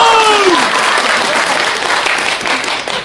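Audience applause at a Chinese crosstalk (xiangsheng) comedy performance, given after the performer asks the crowd to clap again. Dense, steady clapping fills the whole stretch, with a few vocal calls and whoops at the start.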